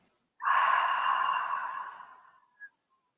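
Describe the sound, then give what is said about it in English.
One long, steady exhale during a guided meditation breathing exercise, starting suddenly, holding steady, then slowly fading out and ending with a brief soft tail. “One more time, deep breath in. And exhale out.”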